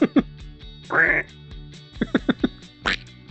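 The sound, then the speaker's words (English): A person imitates a duck's quack with one drawn-out, raspy, nasal burst, followed by a few shorter clipped sounds. “Do handy quack. You say it like a duck?”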